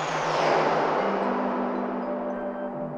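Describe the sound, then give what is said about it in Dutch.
A rocket blasting off into space with someone on board: a loud, dense, continuous roar that holds steady for the whole stretch, with a faint low hum running beneath it. “Maar op dat moment schiet de raket de ruimte in. Met Wally aan boord.”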